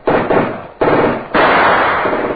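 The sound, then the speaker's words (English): A Tommy gun machine gun firing low toward floor level: loud, rapid streams of shots in a few bursts that follow one another closely, the last one sustained. “Hassan, the machine gun you see, Mr. Knight. Against that, you have no chance.”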